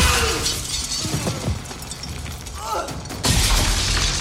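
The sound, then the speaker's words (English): Breaking glass and punchy impacts from a film fight as people are thrown through windows, with mechanical clatter and scattered crashes. A loud burst of shattering glass comes near the end. “And there's some punchy sound effects once Arnie starts throwing people through windows.”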